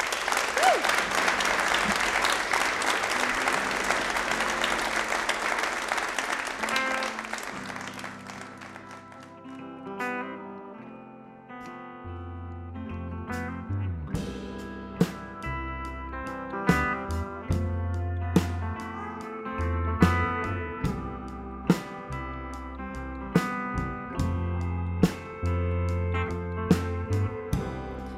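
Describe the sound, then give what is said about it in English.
Audience applause at a live Red Barn Radio show in Lexington: a loud, dense clapping ovation for about eight seconds that fades out as plucked string music begins and carries on alone. “Once again, let's hear it for Andrew Hibbard.”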